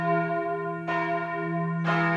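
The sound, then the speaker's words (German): Church bells ring in the tower of the church at Beuerbach, bells in use since 2016: a sustained, humming peal of layered tones, renewed by two fresh strikes about a second apart. “Im Turm der Beuerbacher Kirche schaut Pfarrer Martin Rudolf zufrieden auf die Glocken, die nun seit 2016 das Gemeindeleben akustisch begleiten.”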